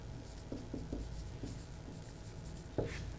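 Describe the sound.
Pen scratching across paper in a few short, quick strokes, faint and soft, with one slightly firmer stroke near the end and no one speaking.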